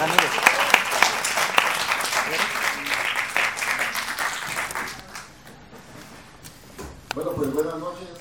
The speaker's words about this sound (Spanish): Demos un fuerte aplauso a Heidi.